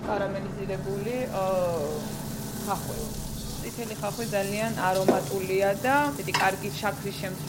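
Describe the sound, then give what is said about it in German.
Red onion rings sizzling steadily in a hot pan, a continuous, even frying hiss running throughout while a person talks over it. “Rote Zwiebeln sind viel aromatischer und saftiger als die weißen. Wenn sie fertig gebraten sind, fügen wir etwas Salz, Zucker und Balsamico-Essig hinzu.”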